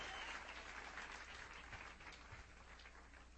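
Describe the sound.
A church audience gives loud, sustained applause, a dense continuous wash of clapping from many hands that holds steady and eases off slightly toward the end.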